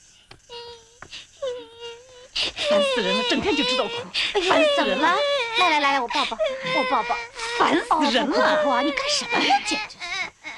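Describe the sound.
A baby cries in long, wavering wails that rise and fall in pitch, loud and persistent after a few quieter whimpers at the start.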